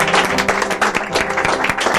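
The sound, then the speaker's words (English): Many hands clap in praise at a church service, beating in a steady, quick rhythm with sharp evenly spaced hits over a dense background wash. “One more hand clap of praise today.”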